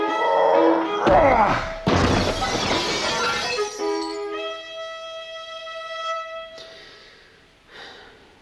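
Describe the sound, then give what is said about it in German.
Glass shattering as a desk is thrown through a window at a workplace: a heavy crash, then a second burst of breaking glass and scattering shards, followed by a sustained ringing tone that fades out. “Schmeiß diesen scheiß Schreibtisch durch das scheiß Fenster!”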